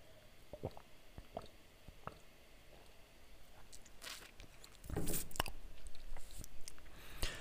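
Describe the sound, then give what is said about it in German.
A faint sip of a drink, with a few soft, wet mouth and swallowing sounds that grow slightly louder toward the end, against a quiet background with no talk. “Ich muss einmal einen Schluck trinken.”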